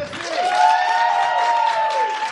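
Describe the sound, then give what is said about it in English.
A live show audience cheers and applauds for the arriving hosts: a loud, sustained whooping cry rides over light scattered clapping, holding steady for a couple of seconds before tailing off. “So, again, a big round of applause for the hosts of We Got This with Mark and Hal.”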